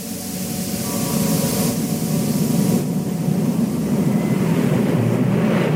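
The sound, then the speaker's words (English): The 1981 Dragonslayer movie trailer opens with a steady, loud, wind-like rumbling roar and no speech. “we're going to give Trisha's grandmother a breather here while I run the trailer for Dragon Slayer 1981.”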